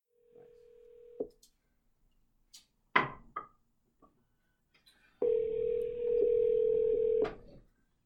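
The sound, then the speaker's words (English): A telephone call being placed: a short dial tone, then a few scattered clicks and taps, then one long, steady ringing tone of about two seconds that cuts off abruptly. “Yeah, dial it up. Yeah, let's go call our expert.”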